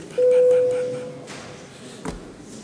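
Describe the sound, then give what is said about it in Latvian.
A bell rung to call a parliamentary vote: one steady electronic tone starts abruptly, holds for about a second, then fades away, followed by a short dull knock. “Paldies, lūdzu zvanu.”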